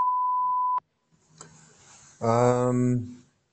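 A voicemail tone signals the caller to leave a message: one steady, pure beep lasting just under a second, then a sharp click. A buzzy, harmonic sound follows a moment later.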